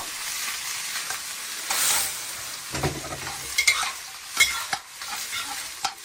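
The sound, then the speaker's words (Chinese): Chopped cattail shoots and dried shrimp stir-fry in a wok, giving a soft, continuous sizzle and hiss. Brief scraping and clattering bursts from the stirring break through it, and no one speaks. “虾米， 炒个10秒，倒入切断的蒲菜， 蒲菜， 对，翻炒3分钟”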